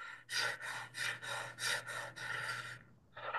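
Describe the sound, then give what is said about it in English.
Quick, forceful breaths in a calming breathing exercise, a few short airy pulses followed by a longer, drawn-out sighing exhale, then another breath begins, with no talking. “the 20 continuous breaths is basically four long, fast breaths followed by one big sigh.”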